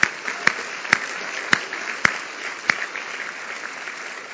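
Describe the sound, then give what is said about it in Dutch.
Audience applause in a church as young people honour older members: steady clapping throughout, punctuated by several sharp, evenly spaced louder claps that stand out from the wash. “En jongeren, geef ze eerst maar even een heel hartelijk applaus.”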